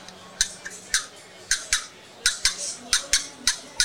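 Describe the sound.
Sharp cutting clucks come from a turkey box call as its lid is popped against the box. Many short, bright, raspy bursts follow in a quick, irregular rhythm.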